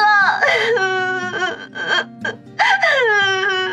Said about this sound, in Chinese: 子双说着说着就哽咽的哭了，林雪飞似乎也受到了感染，跟着抽泣了起来。